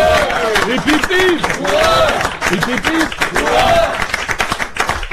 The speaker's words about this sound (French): Je crois qu'on peut faire un hip-hip-hip pour un monsieur Guenassia, les amis.